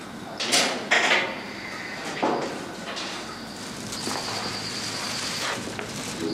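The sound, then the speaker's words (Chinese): An unlocked door opens as someone comes in, giving a few clattering knocks and a brief scrape early on, then fading into a low, steady background hiss. “你进来吧，没锁门。”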